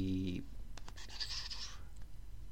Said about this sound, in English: Okay, let me just write that in.